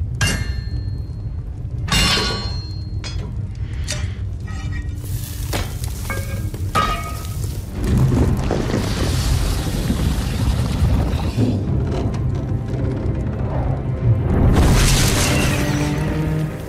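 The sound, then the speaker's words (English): Forging scene from Game of Thrones with metal melted in a cauldron and two swords made: deep rumbling booms, bursts of hissing sizzle and sharp metallic cracks and clanks, loud and layered throughout. “So, if you don't know what's going on here, there is a cauldron and something's being melted and two new swords are being forged.”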